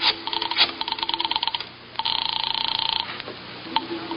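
A telephone is dialed to place a call: bursts of rapid, thin clicking tones, then a steady buzzing ring tone that pulses quickly for about a second, ending with a brief beep, heard over a narrow, phone-like line.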